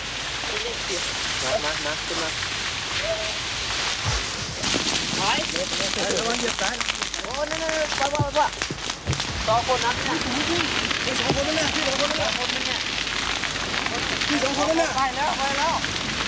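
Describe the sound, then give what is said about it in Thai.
A fire burns fiercely at night, with steady crackling and roaring noise throughout while people talk over it. “ีปัจจัยหลายประการที่ทำให้ไฟในคืนนี้ค่อนข้างจะรุนแรง”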